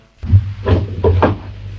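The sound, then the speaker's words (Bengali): A door is opened: a few short, solid clunks and knocks of handling, close together, with brief quiet between them. “দরজা খুলে দাও”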